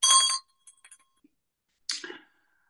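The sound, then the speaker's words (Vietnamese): A small meditation bell rings at a Buddhist class before a minute of silent sitting: two faint, bright strikes, the second leaving a thin tone that lingers and fades. “Bây giờ chúng ta rung chuông nha, chúng ta ngồi im lặng trong vòng khoảng 1 phút”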